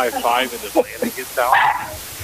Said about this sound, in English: Oh, we got a dog, too.